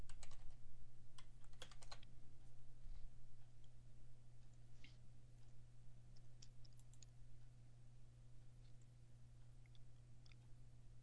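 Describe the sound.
Typing on a computer keyboard: faint, quick key clicks in bursts, busier at the start and sparser later, over a low steady hum, with no voices.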